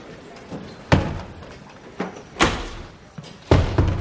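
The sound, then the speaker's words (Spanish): Door being bolted shut, a few sharp wooden thuds and knocks spaced irregularly over a quiet background, each striking hard and then fading quickly. “Cierra la puerta con cerrojo.”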